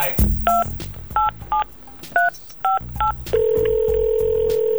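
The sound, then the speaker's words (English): Telephone keypad tones dial out for a call in a quick, uneven run of about seven short beeps, then a single steady tone takes over and holds to the end. “I gotta make a phone call”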